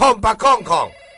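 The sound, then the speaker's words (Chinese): A telephone ringing with a loud, tonal, melodic ring in four quick bursts, followed by a fainter lingering tone. “来，电话叫你哦。”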